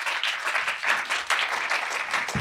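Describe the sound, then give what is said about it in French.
Audience applause welcoming a guest onto a stage: dense, steady clapping from many hands holding at an even level for the whole stretch, with no voices over it. “Je vais inviter quelqu'un d'autre à nous rejoindre, Daniel Batoula, que vous pouvez applaudir.”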